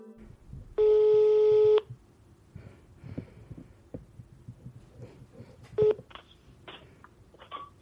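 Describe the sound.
Telephone tones sound as a call is placed. A loud, buzzy tone holds for about a second, then a brief second tone follows several seconds later, with faint background sounds between.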